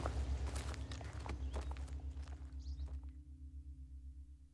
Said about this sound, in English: They keep walking.